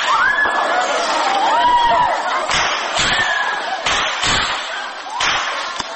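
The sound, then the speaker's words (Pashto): Gunfire and student screams during an attack on Kabul University: several sharp, loud bangs cut through continuous shrill screaming and crowd noise. “دا د هغو ډزو غږونه او د محصلانو چیغې دي چې پر کابل پوهنتون د برید پر مهال ثبت شوي.”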